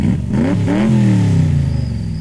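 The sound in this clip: A car driving with its engine revving up briefly and then settling into a loud, steady, mid-pitched drone with rich harmonics.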